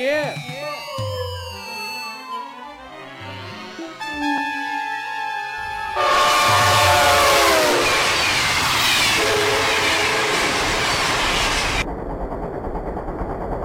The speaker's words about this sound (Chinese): 姐在北上的列车上，姐要去北京上访